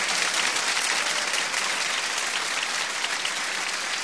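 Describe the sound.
Audience clapping their hands in response to a call to clap along during a devotional recitation praising Hussein: a dense, steady wash of many hands that stays loud and even throughout, with no voices on top.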